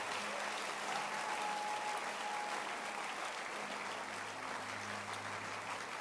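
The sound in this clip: Audience clapping in a church gathering: a sustained, even wall of many hands clapping at a steady level throughout, with no pauses.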